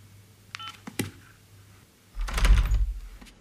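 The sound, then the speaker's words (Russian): An apartment door is opened after the doorbell rings: a few faint clicks and knocks, then a louder rushing, thudding burst of about a second that fades quickly. “Ему в квартиру звонит Ульяна, он открывает дверь.”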